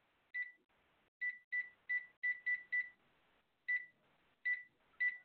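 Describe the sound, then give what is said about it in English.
Ten short, identical high-pitched phone beeps sound while dialing into a call-in line, arriving in an uneven rhythm, some in quick runs and others spaced apart, over near silence with no talk. “I just dialed in. And I hear the prompt.”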